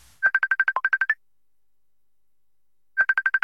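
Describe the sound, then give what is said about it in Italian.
Ringing tone of an outgoing telephone call: a rapid train of about ten short, mid-pitched beeps, a long pause, then the same quick beeping starts again. “Lo chiamo immediatamente.”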